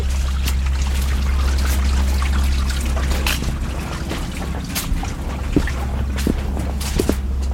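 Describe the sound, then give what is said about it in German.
A small brook trickles and babbles steadily while someone walks along it in fog, a few soft footsteps audible over the constant running water and low rumble. “Ah, genau, jetzt laufen wir so ein Bächli noch.”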